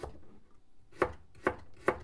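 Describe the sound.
Chopping food while cooking: three crisp, evenly spaced chops ring out clearly over a quiet background.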